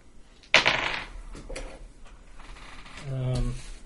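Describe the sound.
Dice rolled for an attack in a tabletop role-playing game: a sharp clatter on a table followed by a few lighter clicks and rattles, with a voice speaking faintly near the end.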